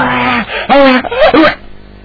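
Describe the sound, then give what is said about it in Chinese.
A girl crying in loud, wavering wails and sobbing bursts with short breaks between them, the voice rising and falling in pitch. “姑娘正哭呢”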